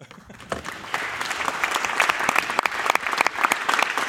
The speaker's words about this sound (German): Wie man merkt, wir sind hier in einer Live-Situation. Wir sind hier auf dem Chaos Communication Kongress, und zwar dem 35. in Leipzig. Und man hörte jetzt unser Publikum.